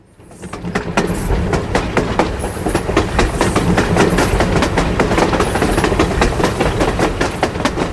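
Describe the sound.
A train runs on a high-speed railway line, heard from the underside of a wagon: a loud, steady rumble that builds within the first second, with regular rhythmic wheel clatter continuing throughout.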